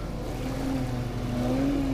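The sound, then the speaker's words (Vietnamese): Armed motorboats speeding in across a rough river, a steady, loud engine drone holding one low pitch that edges slightly higher toward the end. “Vừa lúc từ phía cuối con sông cuộn sóng, ba chiếc xuồng máy vũ trang lao tới.”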